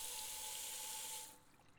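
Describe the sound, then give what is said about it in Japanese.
Hot water running from a tap at a home shampoo basin: a steady, faint rushing hiss that eases off after about a second, with no voices. “お湯の温度このぐらいかな。”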